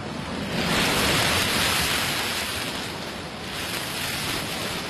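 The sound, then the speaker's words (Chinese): A soft, ocean-like rush heard from a seashell held to the ear: a continuous hissing wash that swells a little early on, eases off and rises again, with no voices. “说把海螺放在耳边就能听到大海的声音，你听。”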